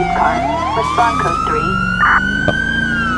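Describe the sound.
A police car siren sounds in a video game, its steady wailing tone rising slowly in pitch. Loud and continuous, it plays over engine-like background noise.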